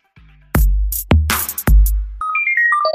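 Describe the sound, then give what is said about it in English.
An office notification ringtone: three heavy booming hits give way to a short melody of bright electronic tones that step up and down in pitch. It plays loudly on its own, with no talking. “Here's a notification from the NoFo Home Office.”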